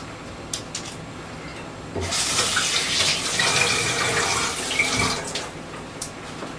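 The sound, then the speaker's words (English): Tap water runs as hands are washed, a steady loud rushing hiss that starts abruptly, holds for about three seconds and cuts off, with a few faint clicks and knocks before and after. “I'm going to wash my hands again.”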